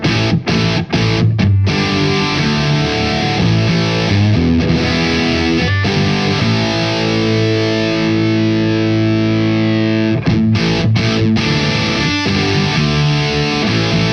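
Electric guitar played through a distortion pedal modded with LED clipping diodes, giving loud, thick, buzzing sustained chords and ringing notes, broken by a few short choppy stops near the start and later.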